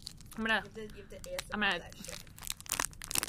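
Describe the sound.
Crisp crunching as a Kit Kat chocolate bar is cut, heard as a few short crackly snaps after people talk and laugh.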